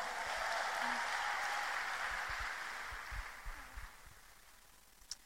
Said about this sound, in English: Please put your hands together as we welcome Demira. Please encourage her.